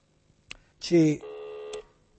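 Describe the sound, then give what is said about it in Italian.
A telephone ringing tone during an outgoing call: a short click, then a steady electronic ring lasting well under a second. “Un altro paio di squilli. Per essere sicuri, per avere la sicurezza matematica che non ne ha voglia di andare avanti.”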